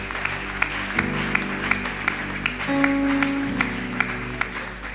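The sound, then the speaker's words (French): A church youth gathering cheers and applauds to welcome a guest rapper, sustained clapping running throughout over held keyboard chords. “Tous ensemble, accueillons le rappeur du jour. Est-ce que nous pouvons acclamer pour la gloire de Dieu?”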